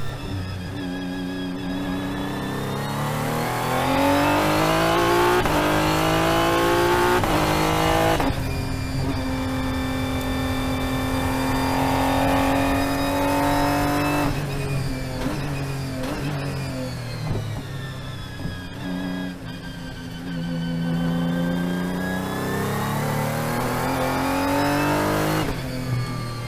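A prototype drag racing car engine with electronic fuel injection revs hard several times, its loud harmonic roar climbing and falling with each throttle blip and held high between them.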